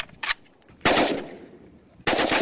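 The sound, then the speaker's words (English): Gunfire from Kalashnikov AK-47 assault rifles: a short burst of automatic fire, then two longer loud bursts with ringing decays that trail off between them. “Nearly all of Marseille's murders last year were carried out with these Kalashnikovs, AK-47 assault rifles.”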